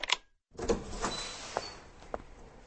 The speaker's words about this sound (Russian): Вот мы открываем дверь